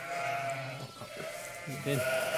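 A sheep and a lamb bleat in a few short, wavering cries over a quiet background.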